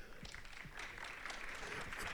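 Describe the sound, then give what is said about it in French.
Audience applause at a conference session: faint, steady clapping from a crowd, continuous and dense throughout the two seconds and swelling slightly toward the end, with no voices standing out. “Tonnerre d'applaudissements.”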